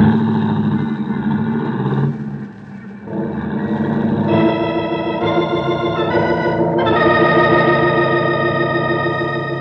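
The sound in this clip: A taxi cab drives off with a steady, droning engine rich in harmonics. Midway the engine tone steps up in pitch a few times as it pulls away, with no talk over it.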